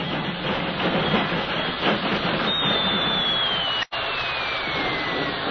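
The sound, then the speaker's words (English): Train noise in a Denver freight yard, a dense, steady rumbling roar with a thin whine sliding downward in the second half and a brief dropout before the sound resumes. “when a mud-spattered but proud Kathy and an exhausted but wiser millionaire drove to a stop in the Denver freight yard”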